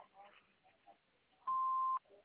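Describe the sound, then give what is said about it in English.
Single answering machine beep: a steady, pure electronic tone lasting about half a second, with faint talk before it and a little after. “You may leave a message after the beep.”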